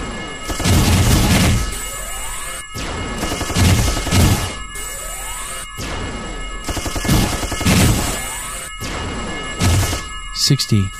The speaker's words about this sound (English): Machine gun. I'm gonna stay out of its way.